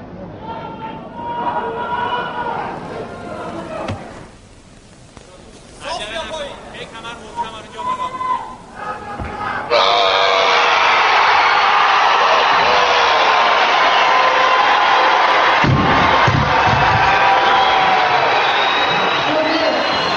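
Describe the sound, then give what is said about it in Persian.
A stadium crowd roars in support of Iranian weightlifter Hossein Rezazadeh. Voices and varied noise come first, then a loud, sustained wall of cheering fills the second half. “حال شادمان و تماشاگران ایران گویان حسین رضا زاده دلاور کشورمون رو مورد تشویق قرار داد.”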